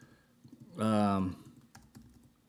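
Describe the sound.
Typing on a computer keyboard: soft, irregular key clicks throughout, with a short, loud vocal sound over them in the middle.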